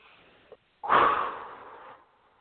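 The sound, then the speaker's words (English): A single deep breath, drawn in and let out as a long, breathy rush lasting about a second. It is quiet and heard alone, with a faint short sound just before it. “So go ahead and take a deep breath and exhale.”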